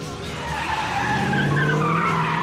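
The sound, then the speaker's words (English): Tires squeal and skid as a Corvette drives down the road in an action film scene. A loud, sustained screech rides over a steady engine roar throughout. “with an insane Corvette driving down the road”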